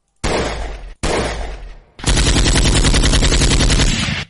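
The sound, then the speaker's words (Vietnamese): Continuous gunfire: two dense bursts of loud, harsh crackling, then a longer sustained stream of rapid shots with a fast, even rhythm. “Khẩu súng nhả đạn liên tục.”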